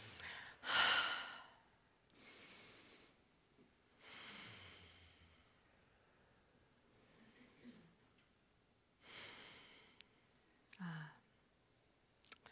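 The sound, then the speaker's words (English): Slow, deep relaxing breaths, faint and unhurried, with a few soft inhales and sighing exhales spread apart with quiet pauses between them. “just to take a couple deep breaths. So join me in three relaxing deep breaths right now.”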